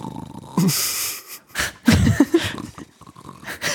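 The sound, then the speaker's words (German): A human voice imitating snoring with a few rough, wheezy snorts and breathy rasps in separate bursts, fairly faint with quiet gaps between them. “Hast du Schnarchgeräusche? Schlafgeräusche?”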